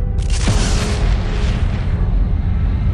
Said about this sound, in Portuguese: Imagine isto. Em nossa galáxia, a Via Láctea, uma imensa estrela explode,